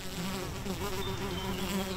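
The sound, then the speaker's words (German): Buzzing of a large, all-black carpenter bee in a garden: a loud, steady, continuous drone that holds for the full two seconds, with no voices. “Da gibt es die ganz schwarze, ich weiß nicht auf Deutsch, Holzbiene. Bei uns heißen die Bumba und die summen so stark und die liebe ich.”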